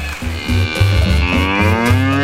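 A cow gives one long, loud, deep moo with a rich, steady tone, sounding alone.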